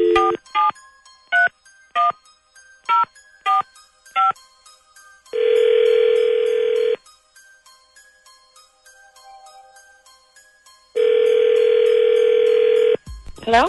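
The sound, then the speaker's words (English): Telephone keypad dialing: a quick, even run of short electronic beeps, then two long, steady ringing tones separated by a silent pause. “Okay, well, let's find out. Dialing at random.”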